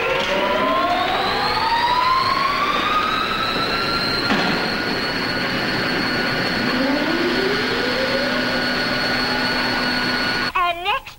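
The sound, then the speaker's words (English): A generator being started up at a power plant spins up with a loud, continuous mechanical whine. Its tones climb steadily while a steady hum holds underneath, and a brief clattering burst comes right at the end. “At the power plant, the rebels fire up a generator.”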